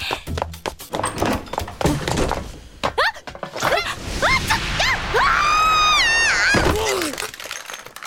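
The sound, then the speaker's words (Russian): A person tumbles down stairs in an animated scene, producing a rapid run of heavy thuds and knocks, followed by strained, wavering vocal cries that rise and fall in pitch. “Тебе что, так нравится с лестниц падать, что ли?”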